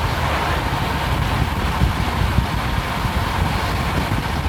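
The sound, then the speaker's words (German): Wind blows on the coast of southern Fuerteventura near wide sandy landscapes, roaring steadily and loudly across the microphone with a constant rushing texture. “Der Wind war tatsächlich so wie jetzt ungefähr.”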